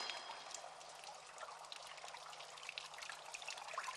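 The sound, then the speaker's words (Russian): Water pouring like rain from holes in tunnel walls, running down the walls and collecting in puddles on the floor: a faint, continuous splashing hiss and trickle with no voices. “Вода льется дождем из отверстий, стекает по стенам, собираясь в лужи на полу.”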